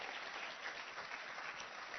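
A church audience applauds to welcome visiting pastors from Manchester to the service. The clapping is faint, continuous and even, with no clear peaks.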